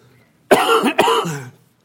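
A cough in a church sermon after something went down the wrong pipe: two harsh, loud bursts in quick succession, with no talk around them.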